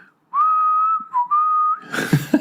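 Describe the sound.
A person whistles while walking along a promenade: a clear, steady high note held for about a second, a short dip, then a second held note, before a burst of rougher noise cuts in at the end.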